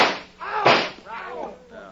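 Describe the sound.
A single sharp gunshot cracks from a drawn gun in a western showdown, one loud burst in the middle set between stretches of talking voices.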